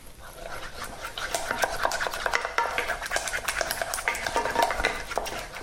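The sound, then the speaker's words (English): A spoon stirs about 10 grams of grated Parmesan into a taleggio cheese sauce, making a continuous wet scraping and rasping with no break. “So I'm also going to just grate in a little bit of Parmesan, probably around 10 grams. I'm going to stir that in.”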